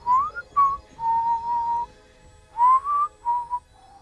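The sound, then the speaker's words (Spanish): Human whistling in a series of short and drawn-out tonal notes at a steady mid pitch, a few gliding upward. The whistles are clear and fairly loud over a faint low rumble, with no talking. “un silbido detrás de ti.”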